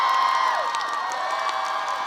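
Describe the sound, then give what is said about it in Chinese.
Audience cheering and applause for a guest, a dense, steady wash of whoops and clapping that fills the whole clip without a break. “来，掌声给斯隆。”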